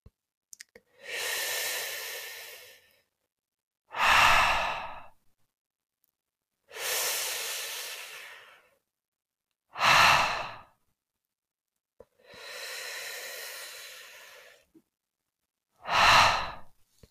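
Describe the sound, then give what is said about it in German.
Slow breathing out through lips rounded into a circle makes a soft, nearly voiceless H hiss. Three long, gentle exhales alternate with three shorter, stronger breaths, each set apart by a brief silence. “Jetzt forme aus deinen Lippen einen Kreis. Atme tief ein und atme fast ohne Ton mit dem Laut H aus.”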